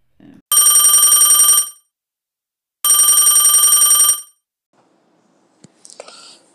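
A telephone bell rings for an incoming call: two long, loud, clattering rings separated by a short pause, followed by a few soft clicks and faint rustling.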